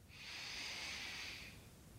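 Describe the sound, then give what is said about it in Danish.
A single deep breath during a yoga session: a soft, airy rush of air that swells and fades over about a second and a half, faint and alone. “Tag den sidste indånding her.”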